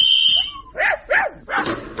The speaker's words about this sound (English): Have you got a strong enough leash on that dog